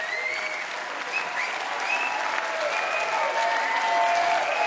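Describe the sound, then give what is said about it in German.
Steady applause and cheering from a festival audience in the courtyard of the Winzer Krems winery as a brass band bows after its final encore. Dense clapping holds at an even level throughout, with thin whistles rising above it. “Großer Jubel für Fanfare Giocarlia. Die Band verbeugt sich noch einmal nach der letzten Zugabe hier im wunderschönen Hof der Winzer Krems.”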